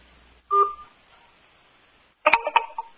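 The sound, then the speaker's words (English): Telephone keypad touch-tones while pressing 4 in an automated call menu: one short beep, a pause, then a quick run of several beeps, with no voices. “Press 4 to continue. I mean, it hangs up on you. Did you press 4?”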